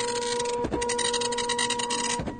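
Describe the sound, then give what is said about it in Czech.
A home printer printing, with a steady mechanical whir, a continuous motor hum and a few soft thumps as the paper feeds. “Ano, tisknu, tiskneš, tiskne, tiskneme, tisknete, tisknou. S rozšířením domácích tiskáren už není pro nikoho problém si cokoliv vytisknout.”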